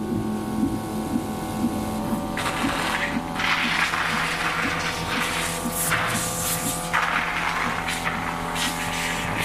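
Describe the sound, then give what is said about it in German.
Rasping breaths hiss through a tracheal cannula in the throat of a patient lying in bed in his room. Several long, noisy bursts of airflow rise and fall over a constant low mechanical hum. “Die Geräusche, die das Zimmer füllen, stammen aus der Trachealkanüle in seinem Hals.”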